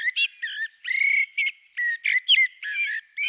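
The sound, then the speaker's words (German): A Eurasian blackbird sings in Germany, a melodious run of many short, fluty whistled notes in quick succession, clear and fairly high-pitched, heard alone. “Nicht weniger melodiös klingt auch ein anderer Vogel, der bei uns in Deutschland das ganze Jahr über zu hören ist. Die Amsel.”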